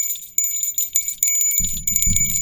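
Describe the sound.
A bell rings out as a sound effect for first-time callers on a call-in program: bright, high jingling tones that carry through the whole clip. A deeper, rumbling layer joins partway through.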